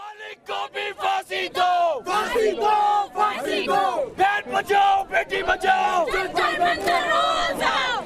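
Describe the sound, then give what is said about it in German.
Angry demonstrators chant outside a juvenile court in New Delhi, India: loud massed voices shout repeated rhythmic calls, broken by short pauses between phrases. “Hängt ihn, die Forderung empörter Demonstranten vor dem Jugendgericht in Neu-Delhi klingt eindeutig.”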